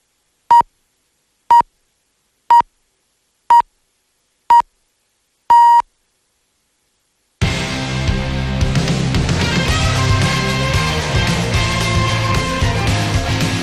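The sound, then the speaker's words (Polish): Radio time signal on a Polish station marking four o'clock: six short, evenly spaced high pips about one second apart, the last slightly longer, then after a brief silence loud music begins. “Ten pierwszy sygnał oznaczał, że mija czwarta, a ten drugi, że rozpoczynamy codzienne,”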